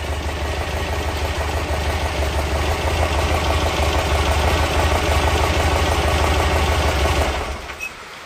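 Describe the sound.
A vehicle engine idles with a steady, loud, low rumble for about seven seconds. It is then switched off with the ignition key, and the sound drops away abruptly near the end.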